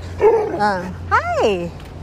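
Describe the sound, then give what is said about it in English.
A guard dog gives two drawn-out, whining barks, each with a high pitch that slides up and then down. “Hey, doggy. It's a guard dog, or a, I don't know, security or whatever.”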